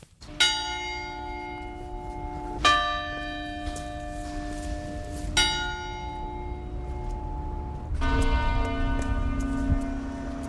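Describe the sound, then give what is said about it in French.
The Jacquemart clock bell of Moulins, which has rung the hours, half-hours and quarter-hours since the 15th century, strikes the hour: four slow, resonant bell strokes, each ringing out and decaying into a long humming tail before the next. “Il sonne toutes les heures, les demi-heures et les quarts d'heure depuis le 15e siècle et rythme la vie des Moulinois. Nous sommes devant le Jacquemart de Moulins.”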